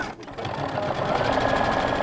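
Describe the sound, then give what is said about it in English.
Sewing machine stitching athletic shorts in a small sewing shop, a steady, fast mechanical whir and rattle that runs without pause from start to end. “A small group of women cut, stitch, and sew at ZD's sewing shop in Columbia.”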